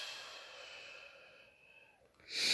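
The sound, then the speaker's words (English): Soft, slow breathing in and out during a meditation. The breath is faint and airy, dips quietly in the middle and then swells into a fuller breath at the end. “And let's breathe. In. Out.”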